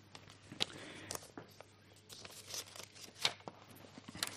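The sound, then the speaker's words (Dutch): Crinkling and rustling of a paper note as it is picked up and handled, with quiet irregular crackles and faint brushing over a low steady hum. “Ik pak even mijn briefje erbij, dat helpt.”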